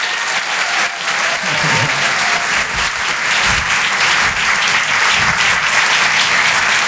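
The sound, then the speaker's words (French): Applause from a comedy club audience at the Apollo Théâtre in Paris welcoming a comedian onstage. Dense, steady clapping fills the whole stretch at an even loudness without a break. “Maximum de bruit, s'il vous plaît, pour Marion Mésadorian.”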